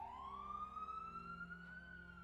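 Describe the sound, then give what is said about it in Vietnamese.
An ambulance siren wails in one long, slowly rising tone, loud and steady throughout, over a low rumbling hum. “Phía xa xa tiếng còi xe cấp cứu đang dần dần tới gần.”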